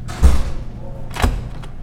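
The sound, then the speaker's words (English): A door closing in a school refectory doorway gives a low thud, then a sharper knock about a second later and a faint click. “And this is the door closing in the doorway in the refectory.”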